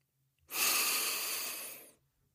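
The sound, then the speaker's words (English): A single deep breath during a guided relaxation while lying on a bed: one steady, airy rush that lasts about a second and a half and is heard alone, with no talk. “First, let's take a deep breath.”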